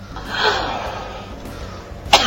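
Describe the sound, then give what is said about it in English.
A woman coughs, bringing something up out of her mouth, with a rough, breathy cough early on and a sharp, abrupt burst near the end. “Oh, it's when she coughs, it's sort of coming out of her mouth.”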